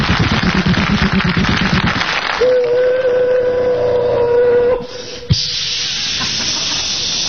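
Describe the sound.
A voice imitates a train, opening with a loud rushing, steam-like hiss, then a sustained whistle-like tone held for about two seconds, and ending with more hissing after a brief click.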